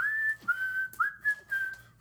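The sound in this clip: A whistled film-score melody: a clear, pure tune of several sustained notes with gliding slides between them, steady and alone.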